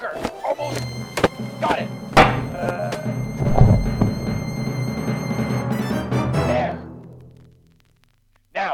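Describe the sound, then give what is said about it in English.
Heavy thuds and blows of a fight in a radio drama, landing as a rapid series of sharp impacts amid scuffling, then dying away into near silence at the end. “And with that final blow, James Curry, the night is silent once again, except for your own heavy breathing.”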